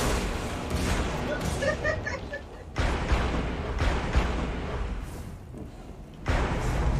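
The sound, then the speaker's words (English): Golden Gun super firing in Destiny 2: a few loud, booming gunshot blasts cut through dense, continuous game noise, each one a sharp, heavy burst that rises above the roar. “Golden gun, watch out.”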